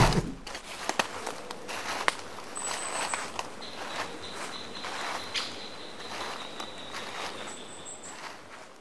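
Footsteps walking toward a beer garden with a wooden skittle alley, many steady crunching steps in an even rhythm, accompanied by thin high insect chirps and the occasional bird.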